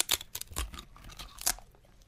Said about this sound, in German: Lecker Esspapier.